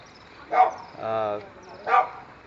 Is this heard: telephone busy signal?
no